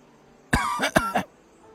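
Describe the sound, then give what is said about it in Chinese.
A quick run of a few short, voiced coughs from a character in a dramatized story, sharp at the start and hoarse, heard alone with no talk. “咳嗽了一声”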